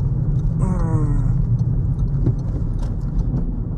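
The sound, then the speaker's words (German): A car drives along a road toward Hanau, giving a steady low rumble with faint higher whines above it throughout. “jetzt fahren wir wieder Richtung Hanau”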